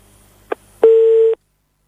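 A telephone line cuts off during a phone-in call: a soft click, then a single short, steady, mid-pitched beep that stops abruptly into silence.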